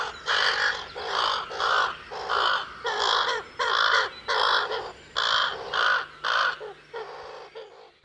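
Ravens call in a series of many harsh, hoarse caws, evenly paced one after another, fairly faint and alone, tapering off at the end.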